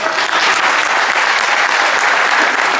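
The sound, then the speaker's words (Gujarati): Audience applause at a formal gathering honoring visiting guests: loud, dense, sustained clapping from a large crowd, holding steady at full strength for the whole stretch without any breaks. “તો આ બધા માટે તમે એવી તાળી મારો કે હંમેશા એ લોકોના કાનમાં ગુંજતી રહે.”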